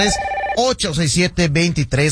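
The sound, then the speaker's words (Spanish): A telephone rings once as the first caller reaches a radio show. The steady electronic ring lasts about half a second and is cut off by loud talking. “Tenemos la primera llamada de la noche en este jueves.”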